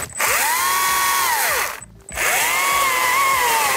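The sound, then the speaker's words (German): A motorized saw whines as it cuts pieces from a tree trunk for firewood: two loud, sustained passes of the same even pitch, separated by a brief drop in the engine sound. “Und schon sind einige Stücke aus dem Stamm gesägt.”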